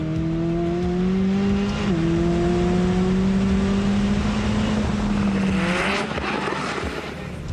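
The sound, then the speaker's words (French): A convertible sports car that reaches 100 km/h in 2.9 seconds accelerates hard with the top down, its loud engine climbing steadily in pitch, dropping briefly at a gear change, then rising again before easing off. “Ah, et puis, le plaisir de rouler décapoté, c'est excellent, quoi. Ça amplifie le son du moteur”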